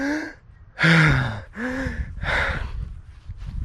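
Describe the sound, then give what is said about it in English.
A voice imitates gasping for air after holding one's breath underwater: a few loud, raspy intakes of breath in quick succession, each rising and falling in strength, with a faint breathy tail. “gasping for air or gasping for breath, right? You're gasping for it, all right?”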